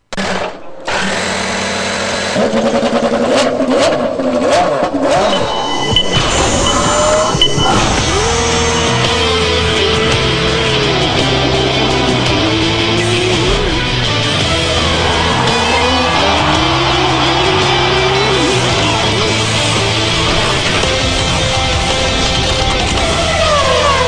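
IndyCar race cars on the Indianapolis road course. High-pitched engine whine roars continuously and loudly for the whole stretch, its pitch sliding up and down as cars accelerate and shift.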